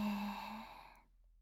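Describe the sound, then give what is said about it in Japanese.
Slow, voiced exhale during a guided relaxation breathing exercise: a soft sigh-like breath with a low hum at the start that thins and fades into silence after about a second. “吐いて、で、吐いて、”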